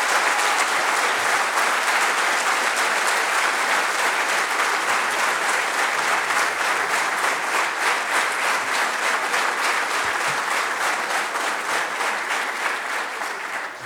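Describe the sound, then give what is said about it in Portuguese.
Loud, sustained applause from an audience at a district party inauguration event in Aveiro, dense, even clapping that carries on for over ten seconds before easing slightly at the very end. “E para eles, uma salva de palmas.”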